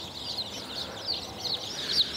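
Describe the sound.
Many young chicken chicks peep in high, thin, overlapping chirps under a heat lamp, a continuous faint chorus of quick cheeps with a few louder calls standing out.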